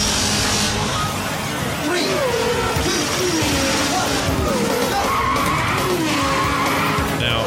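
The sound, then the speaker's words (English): Tyre skids and racing car engines from a 1992 Sega arcade racing video game, a dense, continuous roar with wavering whines and squeals running through the whole stretch at a steady loudness. “Point out, Virtua Racing had some of the coolest sound work. Listen to this. Yeah, listen to that.”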